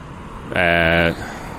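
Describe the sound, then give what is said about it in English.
Horn blast from a Viking Splash amphibious tour vehicle driving past: a single loud, steady blare of about half a second that rises sharply out of low street rumble and stops just as abruptly. “Sorry, fucking lost for words there for a moment, because the Viking splash thing drove by me and I got distracted by it.”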